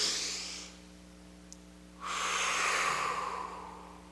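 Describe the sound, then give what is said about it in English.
An audience, choir and pastor exhale together during a church service. The tail of one airy group breath out is followed by a longer one that swells and slowly tapers over a low steady hum. “And then let it out. That helps, doesn't it?”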